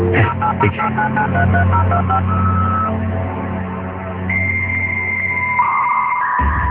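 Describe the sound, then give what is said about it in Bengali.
Telephone keypad tones sound as a number is dialed on a phone. A quick run of short stepped beeps is followed by longer, steady tones that shift in pitch. The tones are loud and clear, with no talking. “এই যে number, এই যে আমি phone দিচ্ছি।”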